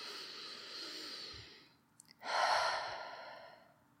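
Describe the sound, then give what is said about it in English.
Slow, soft breathing in and out during a guided breathing exercise: one long, airy inhale fades to a brief pause, then a fuller, slightly louder exhale trails off, heard alone. “Breathe. Do it with me right now, in and out.”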